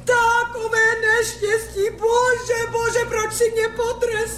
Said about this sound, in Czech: Proč pláčeš, dobrá ženo?